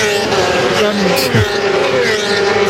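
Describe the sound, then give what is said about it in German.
Motorcycles race past with a strained engine whine and a sharp drop in pitch as one goes by, mixed with talking voices. “in dem Moment, wo es vorbeirauscht, spürt man förmlich die Gewalt der Motorräder”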